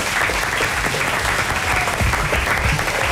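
Applause from an audience, a dense, continuous clatter of clapping hands that stays loud and even from start to finish.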